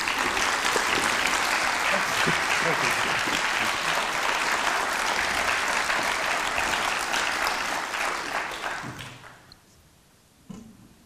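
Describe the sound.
Applause from a festival audience welcoming a speaker: dense, steady clapping that holds for about eight seconds, then thins out and fades, with a single soft knock after it dies away.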